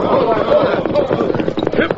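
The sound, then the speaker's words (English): Clip-clop of a lame horse's hooves as its rider reins it up, a fairly loud, uneven run of beats that holds through the whole moment. “His horse has gone lame. Yeah. No, she can't get away now. He's reining up.”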